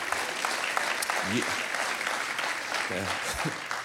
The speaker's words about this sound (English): That's half-hearted applause.